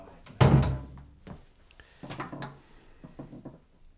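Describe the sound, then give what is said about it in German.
A door being shut lands as one heavy wooden thump with a short ringing decay, followed by quieter shuffling and movement sounds. “Mach mal die Tür zu.”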